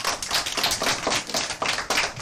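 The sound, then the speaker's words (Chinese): Classroom applause from students, a quiet patter of many hand claps falling into a loose, rhythmic pulse of repeated bursts. “就是这些，很好，掌声。”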